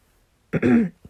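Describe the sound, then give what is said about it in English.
Throat clearing from a person whose throat is a little sore after eating ice cream: one rough, throaty burst about half a second long, then a brief softer grunt. “I have a little frog in my throat. It's because I had some ice cream earlier and it was super yummy. But when you eat ice cream, it makes your throat a little sore.”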